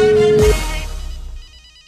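A telephone rings as a call is placed, with a steady electronic ring tone that breaks into a buzzy ringing texture and fades out over about a second and a half.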